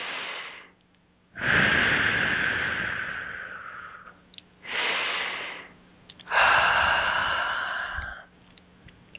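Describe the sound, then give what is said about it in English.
Deep breathing, three long airy breaths rising and fading one after another, with short quiet gaps between them and no talk. “A couple deep breaths here.”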